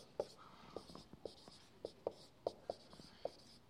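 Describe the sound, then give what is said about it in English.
Writing on a board during a lecture: faint scratchy strokes punctuated by many quick, sharp taps in an uneven rhythm. “let me write that up here.”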